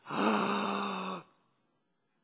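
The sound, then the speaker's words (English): A single deep breath is pushed out loud, a breathy rush that holds steady for about a second, then cuts off into silence. “I want you to take a deep breath out loud. You hear that?”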